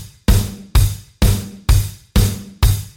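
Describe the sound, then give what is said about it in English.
A four-on-the-floor bass drum pattern of six punchy, evenly spaced thumps at a steady tempo, each hit decaying quickly before the next. “When you add the extra bass drum hits, it sounds like this.”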